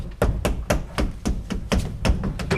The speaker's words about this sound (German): klopfen Sie die Rückwand des Schrankes ab hier